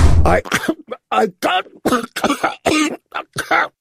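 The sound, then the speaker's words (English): A coughing fit after eating dry pie: a rapid string of harsh, raspy coughs and throat-clearing bursts, loud and choppy, with brief gaps between them. “He starts coughing a little bit more.”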